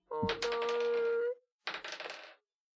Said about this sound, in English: It's rolling so much. I know. I'm so scared. Sometimes I think he only rolls one dice, but then rolls 17 others just to confuse us.